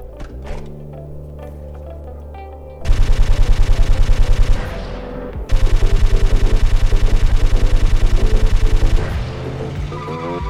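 Machine gun fire in two long sustained bursts of rapid, evenly spaced loud shots, with only a brief gap between them and a short tail after the second.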